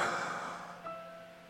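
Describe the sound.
One long, airy breath from a person starts fairly strong and fades steadily, faint and alone, with a quiet high tone lingering after it.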